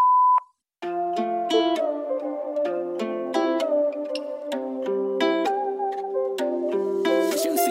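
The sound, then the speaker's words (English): Voicemail tone after a recorded message: a single short, clear mid-high beep, then a brief silence before tuneful music with stacked sustained notes begins and carries on to the end. “Please call back later or leave a message after the tone.”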